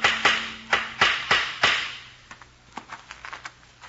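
Hammer nailing up a sign outside a house: several sharp, loud blows in an uneven rhythm, followed by a run of lighter, quicker taps.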